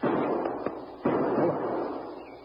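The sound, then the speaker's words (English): Rifle shot fired as a signal from a grove: one sharp report bursting out of steady background noise and trailing off, with a couple of fainter pops just before it. “That was the captain's signal. Hand me a rifle, will you? Here, here. This shot's come from up there in the grove.”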